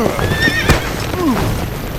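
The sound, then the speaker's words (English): A horse neighs loudly, a shrill whinny that sweeps downward and fades, with clip-clop hoofbeats faintly underneath. “One outlaw made the mistake of finding the horses and thinking he was going to set them free.”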